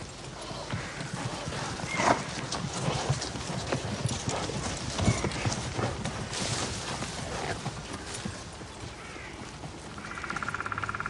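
Horses' hooves clip-clop as riders move in single file through woods, producing a steady, continuous patter of overlapping hoofbeats at moderate loudness with no talk.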